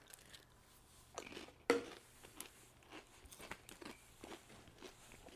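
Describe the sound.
Crunching of scorching, wavy, loaded nacho flavored Pringles chips: one loud sharp bite stands out among several softer crunches and chewing sounds, with no talk.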